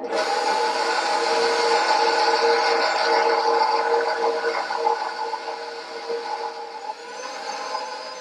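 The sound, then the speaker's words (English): A stand mixer with a dough hook kneads dough, its motor giving a steady, loud whirring drone with a high whine, churning continuously with slight wavering and a small dip near the end. “I'm going to put this dough hook right in here like this. And I'm going to raise this up. And I'm going to go ahead and stir this in with the machine.”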